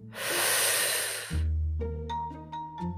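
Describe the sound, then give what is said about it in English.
A deep breath in: a long, airy, hissing inhale lasting over a second, followed by soft, sustained musical tones with a few gentle chime-like notes. “let's take a few breaths. One breath.”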